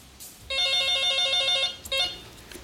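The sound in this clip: A telephone rings with a call-in to a radio show. One long bright electronic ring burst is followed by a brief second ring, with no voices.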